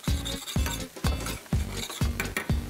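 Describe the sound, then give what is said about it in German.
Meatballs and porcini mushrooms fry in a pan while a utensil stirs them, making six regular, evenly spaced scraping strokes over a soft sizzle. There is no talk. “Mal die Frikadellen raus hier. Ja. Und tu die mit einfach zu den Pilzen, dass die dann noch so leicht gebraten werden.”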